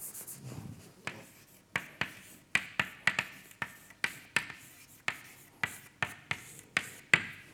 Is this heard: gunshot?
no